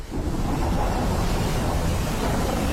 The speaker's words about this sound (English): Relax and unwind to the sound of the Wicklow Mountains in winter.